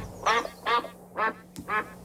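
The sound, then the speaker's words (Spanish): A duck quacks four times in an even rhythm. Each call is a short, raspy, nasal honk, clear against a quiet background, with a faint tick between the third and fourth quacks. “Ahí está, mira. Ahí está el pato, sí, cómo no.”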